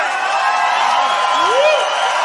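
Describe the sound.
A live audience at a cumbia concert cheers and applauds, a continuous wash of crowd noise with a rising whoop near the middle.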